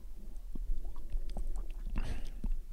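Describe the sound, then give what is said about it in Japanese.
Someone sips and swallows a cloudy drink, making a few soft wet mouth clicks and then a fuller gulp in a short burst. “それでは飲んでみたいと思います。”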